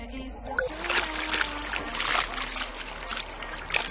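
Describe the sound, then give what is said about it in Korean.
Clear mountain stream water gurgling and splashing in the Wangpicheon valley, a sweetfish habitat, a continuous bright trickling rush with small splashes throughout. “맑고 시원한 계곡, 은어들의 서식지입니다.”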